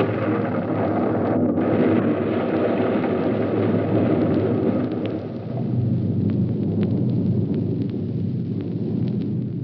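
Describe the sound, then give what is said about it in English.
A deep, continuous roar of an underground gas pocket exploding, produced as a radio drama effect. The rumble is loud and steady, dips briefly midway, and stays dense to the end with no voices. “The heat from the thermic radiation projectors made that gas pocket they ran into explode.”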